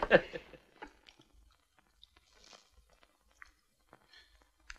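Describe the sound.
Chewing and biting during a shared meal: soft, faint, moist crunches and clicks, scattered irregularly through otherwise quiet moments.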